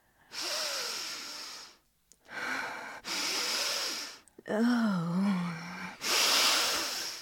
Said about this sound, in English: All right, bitch, don't snort the fucking thing.